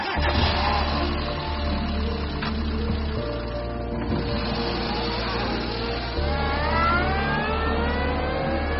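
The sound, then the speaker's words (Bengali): A car engine runs steadily, then revs higher as the car pulls away, its tone rising toward the end as it accelerates. “হিরণবাবু বাচ্চাটিকে সেখানেই রেখে গাড়ি নিয়ে এক প্রকার পালিয়ে যান।”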